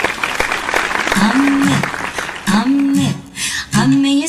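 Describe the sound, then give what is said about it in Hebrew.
A game-show audience claps for the winner of a quiz round: loud, dense applause, with voices calling out over it in several sustained bursts as the clapping continues underneath. “מחיאות כפיים לאיתן!”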